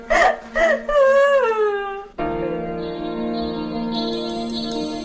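A young woman crying inconsolably in a 1985 Spanish family drama film: two gasping sobs, then a long wavering wail that falls in pitch, after which steady held tones take over.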